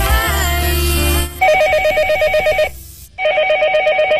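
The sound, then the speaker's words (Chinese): Telephone ringing with an incoming listener call to a radio show: two long, warbling electronic ring bursts separated by a short silence, loud and clear with no talking. “下面我们将接听第二位听众的来电”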